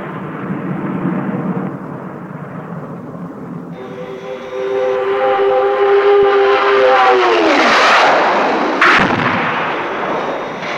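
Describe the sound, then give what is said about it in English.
Aircraft gunfire during a dummy attack on another aircraft: a dense, rumbling burst of firing over a steady engine drone and a whining tone that drops in pitch, ending in one sharp, loud crack. “I want you to make a dummy attack on Captain Scarlet's aircraft. Open fire and make sure you miss.”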